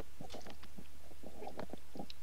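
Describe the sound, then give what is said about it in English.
Mouth noises made on request: faint wet clicks, smacks and tongue pops in a loose, irregular series of short bursts over a quiet background. “What's your mouth noises? That should be an AMS, like an ASMR or something, you know? You wanna practice on it? Give me a sample.”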